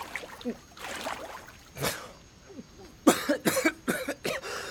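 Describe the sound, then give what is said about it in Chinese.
Spluttering coughs from someone who has just nearly drowned: a few scattered coughs at first, then a rapid burst of several harsh coughs that is louder toward the end. “边南反手也抓住了秋意的胳膊，一边抹脸一边咳嗽，半天才转脸过来盯着秋意。”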